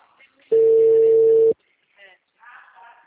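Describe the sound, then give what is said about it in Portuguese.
A telephone ringback tone sounds while a call is being placed: one steady, mid-pitched tone lasting about a second, then near silence with faint background noise. “Eu tô ligando pro pessoal que eles estão atendendo agora de manhã.”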